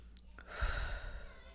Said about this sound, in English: deep breath. One more. In through the nose this time.